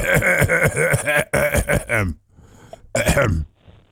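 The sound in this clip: A man clears his throat in a few loud, rough, voiced rasps, then gives one shorter harsh burst after a brief pause.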